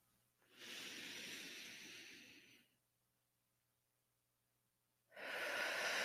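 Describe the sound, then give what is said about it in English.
A deep inhaling breath during a guided breathing exercise comes as a soft, airy hiss of about two seconds. After a quiet pause, another breath begins, and no one speaks. “Inhale.”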